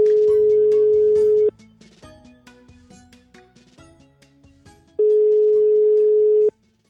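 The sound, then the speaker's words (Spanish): Ringback tone of a telephone call being placed to an interviewee: two long, steady, low tones separated by a few seconds of faint, uneven tonal sounds, the ringing stopping abruptly after the second tone. “Turquem a Ernesto.”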